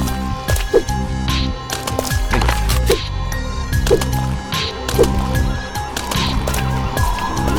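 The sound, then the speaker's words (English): Horse sounds in a video game as the horse kicks the player back into a gate: hoof clops, a whinny and a few sharp hits over steady game music. “Did you guys hear what just happened? The fucking horse kicked me back into that gate.”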